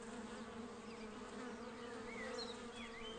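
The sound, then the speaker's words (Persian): A swarm of bees buzzes around a honey box, a faint, continuous droning hum that wavers slightly in pitch and holds steady throughout. “اما گذشتن از یک اردوی بزرگ زنبورها کار آسان نیست”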